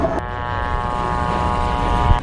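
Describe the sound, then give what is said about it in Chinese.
A target drone aircraft takes off before a live-fire exercise, its engine giving a loud, steady, buzzing drone with a layered harmonic whine that holds at an even level throughout. “靶机已经起飞，这意味着距离实弹射击只有不到20分钟的时间了。”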